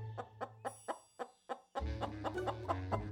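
A hen clucking: six short, evenly spaced clucks, then a quicker, denser run of clucks over a louder, steady background.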